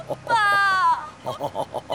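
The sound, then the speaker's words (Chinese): A child cries in one sustained, high, wavering wail that drops in pitch at its end, and someone talks in short bursts afterward. “不哭了不哭了，咱们回家啊，走回家，哦呦呦呦呦呦呦，你看你哭的啊，快擦擦啊，快擦擦”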